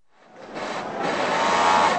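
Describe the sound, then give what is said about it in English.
Sewing machines run busily in a brightly lit clothing factory in Gurgaon, south of Delhi, as hundreds of men trim and cut clothes. A dense, steady mechanical whir swells in over the first second, then holds loud and even. “Hundreds of men work busily on their sewing machines in a brightly lit factory in Gurgaon, south of Delhi.”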